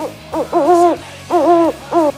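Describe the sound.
Owl hoots played as a sound effect: a few loud, tonal, wavering hoots with a slight dip in pitch midway through each, separated by short pauses and heard alone.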